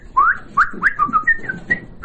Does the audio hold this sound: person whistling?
yes